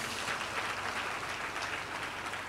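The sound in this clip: A church audience claps in thanks to the Lord during a sermon, producing a steady, even patter of many hands that holds without pause for the whole clip.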